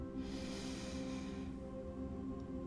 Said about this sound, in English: Take a deep breath